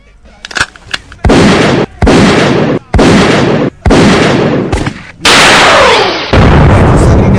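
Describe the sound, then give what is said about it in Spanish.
Double gunshot sound effect: two sharp cracks at the start, followed by a series of long, loud, roaring bursts of noise separated by brief gaps. “El disparo doble, en este caso, para el periódico en cuestión, Rolling Stone.”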